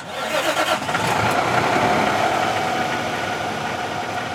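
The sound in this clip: A car engine starts and quickly builds into a loud, steady rumble as a passenger shuttle driver sets off, holding an even drone with no voices over it.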